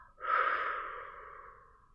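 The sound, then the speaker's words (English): A single slow exhaling breath during a guided relaxation exercise, soft and airy, swelling quickly and then tapering off gradually over about two seconds, with no talk over it. “Feel the tension leaving your arms as you exhale.”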